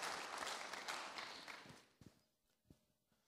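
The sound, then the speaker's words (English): Audience applause welcomes guests at a church gathering: a dense wash of clapping, quiet overall, dies away after about two seconds, leaving a few isolated thumps. “Why don't you give them a hand of welcome this morning?”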